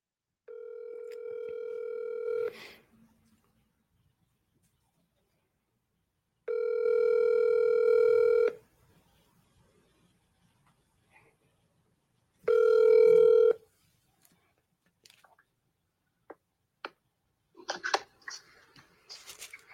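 A telephone call being placed: a steady electronic ringing tone comes in three long bursts separated by silence, followed by a scatter of faint clicks and handling noises, with no talking.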